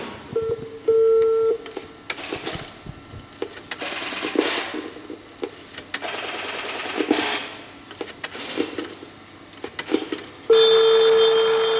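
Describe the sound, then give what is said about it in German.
An old telephone answering machine set up in a telephone museum plays back with mechanical whirring and clicking, short beep tones near the start and a steady, louder tone at the end. “ist der frühere Anrufbeantworter ja äh, noch allen so im Gedächtnis und wir haben hier so einen aufgebaut und äh, den wollen wir uns jetzt mal anhören.”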